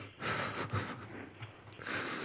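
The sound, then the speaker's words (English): A man breathes heavily in steady, rasping, snorting breaths over a noisy background. “He's breathing heavy.”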